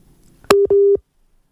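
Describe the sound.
Telephone busy tone after a dropped call: a sharp click, then two short, steady mid-pitched beeps in quick succession, followed by silence.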